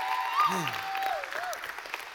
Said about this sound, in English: Man, we love the Rothlines so much. Give them another huge hand. That was incredible.